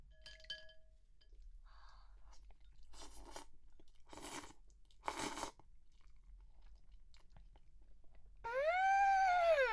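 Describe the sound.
Somen noodles being eaten, with three short, fairly loud bursts of slurping and chewing noise spaced about a second apart, then a brief higher tonal sound at the end.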